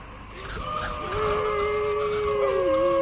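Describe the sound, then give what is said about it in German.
Hounds of a hunting pack howl in long, wavering, overlapping tones that bend in pitch and grow louder as they continue. “Die Hunde haben uns gefunden.”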